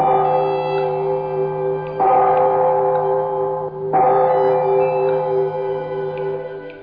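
A large bell, shaken to ring, gives three strong strikes a couple of seconds apart. Each strike has a rich, sustained tone that fades slowly before the next one lands.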